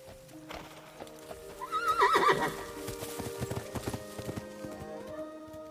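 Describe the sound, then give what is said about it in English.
A horse whinnies once and its hooves clip-clop as the rider leaves down a path. The neigh is a shrill, wavering call, followed by many quick, uneven hoof beats over a steady background. “Wendy watches Tiger Lily ride away down the path”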